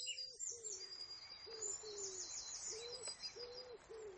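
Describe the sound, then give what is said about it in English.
A wood pigeon coos in a steady series of soft, low, hollow notes repeated in short phrases, while faint high-pitched birdsong twitters continuously above. “Can you hear the wood pigeon?”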